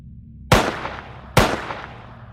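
Two sharp handgun shots, fired from a gun drawn from a holster at a creature. Each is a loud, abrupt crack with a decaying tail, and the second follows under a second after the first.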